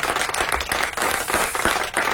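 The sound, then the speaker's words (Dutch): Audience applause at a live Dutch-language show, a thick, steady burst of overlapping claps with no pause, fairly loud and even throughout. “Ja, ik begrijp dat applaus. Begrijp het.”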